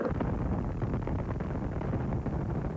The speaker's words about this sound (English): The familiar sound of a rocket blasting off